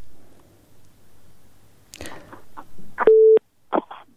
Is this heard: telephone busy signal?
yes